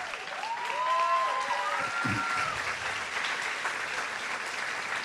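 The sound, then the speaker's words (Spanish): A church audience applauds to welcome a pastor: dense, steady clapping fills all five seconds at an even, loud level with no break. “Y quiero que recibamos con un fuerte aplauso al pastor David Escarpeta.”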